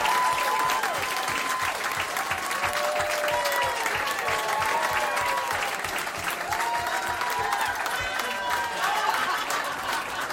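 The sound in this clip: Audience applause welcoming guests onto a comedy show: loud, sustained clapping from a crowd, with whoops and cheering voices rising above it throughout and no break in the noise.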